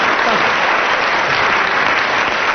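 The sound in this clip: Loud audience applause at a comedy panel game recording, a dense, unbroken wash of clapping that holds steady from start to finish.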